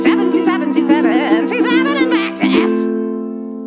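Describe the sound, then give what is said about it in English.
A human voice sings a rapid string of meows in imitation of a cat, many quick syllables at a melodic pitch over a sustained chord that rings on and fades after the singing stops. “Meow meow meow meow meow meow meow meow”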